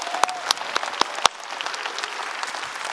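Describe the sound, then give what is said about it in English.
Applause from a church audience welcoming its campuses and online viewers at a New Year service: sharp, separate hand claps at first, settling into a softer, steady patter of many hands. “All the people watching online, let's give them a big hand.”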